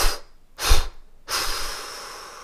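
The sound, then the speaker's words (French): Forceful exhalation in three bursts during a guided breathing exercise: two short, sharp, airy puffs, then a longer breath out that slowly tails off. “Et vous expirez de manière dynamique en trois fois.”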